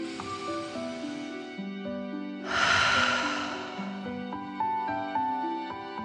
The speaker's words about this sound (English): and then out through your mouth, imagining you are breathing fire. Ready? Deep breath in and out.